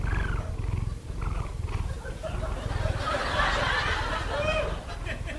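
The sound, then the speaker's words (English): A cat purring or snoring in its sleep: a steady, low, rough rumble that pulses rhythmically and stays fairly loud for the whole stretch without a break. “That's my cat, Sammy.”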